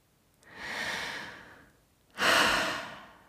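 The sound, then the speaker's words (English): Two long, deep breaths of air, the first softer and gradual, the second louder with a sharper onset, each swelling and fading away with quiet between. “Now, take a deep breath.”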